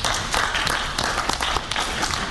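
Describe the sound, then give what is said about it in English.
Applause from a crowd, a dense, continuous clatter of many hands that stays loud and even throughout a brief burst of about two seconds. “if you're a CTU member in the crowd, let me give you a round of applause”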